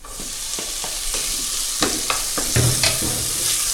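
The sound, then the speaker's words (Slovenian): Onion sizzling in a pan after frying golden, with a bright constant hiss broken by several scraping stirs and clinks. “Tako, čebula se zdaj že zlato rumeno opražila in zdaj bom pa dodal še bel fižol.”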